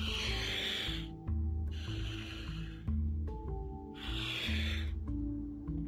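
Slow, audible breaths drawn in and out through the nose during a breathing exercise, a few long airy cycles separated by brief pauses, over a low steady tonal hum.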